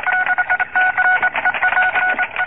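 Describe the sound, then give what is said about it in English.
Telephone dialing tones from a newsroom phone as someone keeps calling Chicago on a dead line: a rapid series of clear, steady two-pitch tone bursts repeating with short gaps, with no voices. “Have you gotten through to Chicago yet? No, the wire's dead. Well, keep calling.”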